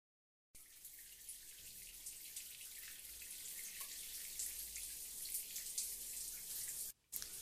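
Running water of a shower pours as a steady, even hiss after a short silence at the start, holding at a constant level with a brief break near the end. No voices are heard.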